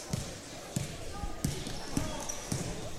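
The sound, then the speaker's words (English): A basketball dribbled on the court during a women's basketball game: six sharp, evenly spaced bounces thump in a steady rhythm over a low background of gym noise. “They kick it right back out to Lambert. Lambert will dribble back.”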